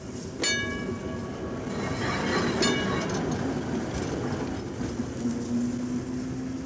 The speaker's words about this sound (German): Über dem in heißer Mittagssonne liegenden Betriebshof der städtischen Straßenbahn fährt langsam der fahrplanmäßige Triebwagen des großen Rings, holt sich im Depot seinen Anhänger und begibt sich auf seine Tour durch die Stadt